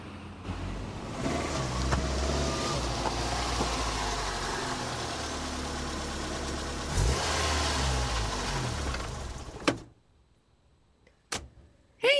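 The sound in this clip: A car pulls over and stops: its mid-pitched engine runs steadily, swells briefly, then cuts off abruptly into near silence, followed by a couple of sharp clicks.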